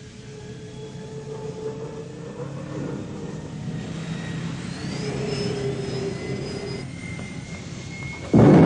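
A spaceship engine starts for takeoff: a rising whining drone with sweeping tones that builds steadily in intensity, then ends in a sudden loud roaring burst.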